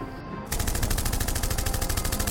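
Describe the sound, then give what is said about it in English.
Rapid automatic gunfire erupts in a radio drama shootout after a brief quieter lead-in, then continues as a loud, sustained stream of fast, evenly spaced shots. “Watch it! Don't shoot me!”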